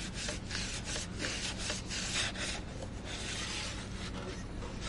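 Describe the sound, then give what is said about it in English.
Wood is sanded by hand with many rhythmic, scratchy rubbing strokes in a steady back-and-forth pattern, a dry rasping texture that continues throughout at moderate loudness. “Man, this guy's over here still sanding.”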